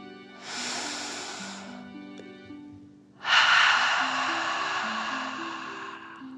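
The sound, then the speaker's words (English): Two long, breathy deep breaths, one drawn in and one let out, for a calming children's meditation. The second breath is louder and longer, over soft, steady background music. “Fill up your belly. Deep breath in and out.”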